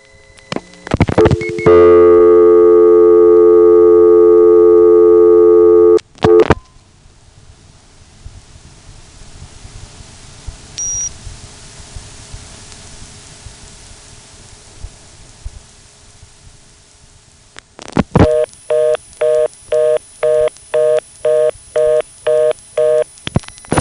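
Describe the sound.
Telephone trunk tones on a line switching from a directory assistance circuit to a TSPS trunk: a loud steady tone, then a long hissy quiet line with one brief high-pitched beep, then a rapid, loud on-off reorder tone of many pulses.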